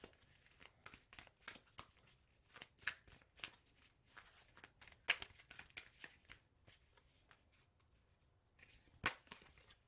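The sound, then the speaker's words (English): A deck of self-care cards is shuffled, giving many quick, papery riffles and flicks in uneven bursts, quiet and alone. “All right, so Let's get some self-care cards.”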